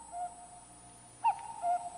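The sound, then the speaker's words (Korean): A cuckoo calls in a few soft, hollow hooting notes, one short tone followed after a pause by a brief louder note and then a longer held one, all faint over a quiet background. “뻐꾸기 소리가 들리죠? 깜짝 놀랐습니다.”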